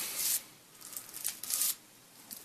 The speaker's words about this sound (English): It's the sound of pure hemp king-size papers being rolled into a new, nice, smooth, conical, cylindrical shape. Mm. This is the sound of me twisting it.